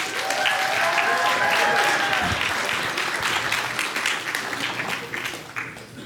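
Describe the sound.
An audience applauds to welcome a speaker to the stage, with loud, dense, sustained clapping that eases slightly toward the end.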